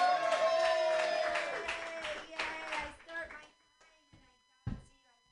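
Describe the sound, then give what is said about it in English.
Scattered clapping from a small comedy-workshop audience, fairly loud at first with a sustained voice over it, then thinning out to a few sparse, separate claps. “All right, I'm the last comment. Clap for me.”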